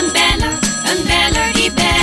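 A bright bell jingle signals a caller on the line: loud, rhythmic ringing tones over a low, beating backing, with no talk.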